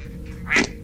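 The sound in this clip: A toy duck squeezed in a hug gives a single short, nasal quack, rising briefly above a steady low background hum.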